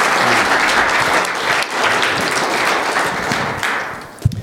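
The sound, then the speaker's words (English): Sustained audience applause welcoming a speaker, a dense, even wash of many hands clapping for about four seconds before tapering off, ending with a brief thump. “So it is with great pleasure that I introduce my friend Steve Robertson. Please give him a welcome.”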